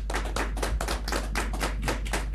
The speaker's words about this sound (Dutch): We gaan alvast verder applaudisseren, hè?